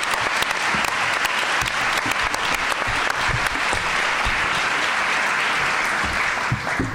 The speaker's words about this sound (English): Please, as I give the podium to Gordon, give a warm welcome to all of our speakers and our moderator.